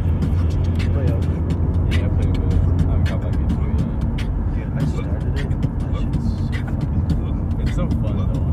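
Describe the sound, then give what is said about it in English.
Steady low rumble of a car driving, with continuous engine and road noise throughout and some indistinct voices. “We're driving to see Aiden.”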